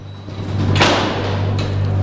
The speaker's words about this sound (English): At Yuma Prison, a cell door opens